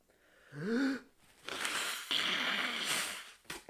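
A stuffy nose from the flu blown into a paper tissue: a brief vocal sound, then two long, loud, noisy blasts of air and a short final blow.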